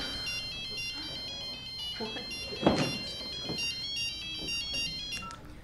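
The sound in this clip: A mobile phone ringtone goes off in a classroom, playing a bright, repeating melodic tune for the whole stretch, with a few brief muffled noises underneath.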